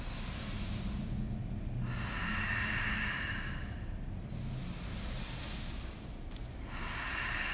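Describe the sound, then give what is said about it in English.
Breathing during a yoga sequence: several slow, rhythmic breaths, each a hissing, surf-like swell that rises and falls over a steady low background, with no talking. “Listen for the breath, guys.”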